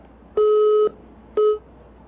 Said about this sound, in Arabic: طيب انقطع الاتصال، معنا اتصال آخر